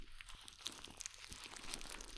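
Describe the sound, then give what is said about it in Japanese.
Ears are massaged and rubbed with soft, close crinkling and scratchy friction, broken by faint, irregular crunches. The sound stays quiet throughout. “ちなみに、寝る前にもこうやって耳を揉んだり、ツボを押すと寝つきが良くなるそうですよ。”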